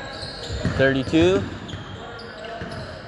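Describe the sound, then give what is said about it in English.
A basketball dribbled during a high school game, Camas Valley against Pacific: a few firm bounces on the court come through under a commentator's voice, with crowd noise behind. “Number 12 dribbling down to the right side. Passes it to 32.”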